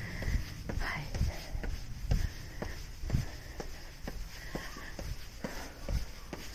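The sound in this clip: Footsteps walk outdoors along a very quiet path, a steady run of many soft thuds at an even pace, with faint breathing or voice in the background.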